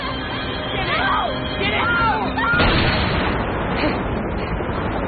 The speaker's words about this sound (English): has fired his gun into the air